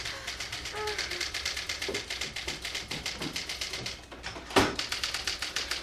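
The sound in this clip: A mechanical typewriter is typing on a bare roller after the paper has slipped to the floor. The key strikes are rapid, even and continuous, with one louder clack near the end.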